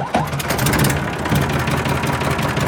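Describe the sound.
A car engine rumbles steadily as the vehicle drives off toward an amaranth field in the Lublin region, a continuous, fairly loud drone with no pause.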